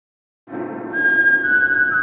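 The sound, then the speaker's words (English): A person whistling loudly: after a moment of silence, a sustained, piercing single-pitch whistle starts abruptly with a breathy edge and grows louder, holding steady to the end with no talk. “Oh, my ears, dude. What the hell? I couldn't even hear anything.”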